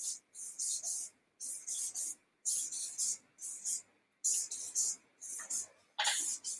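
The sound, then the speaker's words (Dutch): A pen drawing a diagram of a house with a roof and six building blocks on paper, quick scratchy strokes coming in many short bursts with brief gaps between. “dan teken ik, teken ik het plaatje van de zes bouwstenen. Kijk even met me mee.”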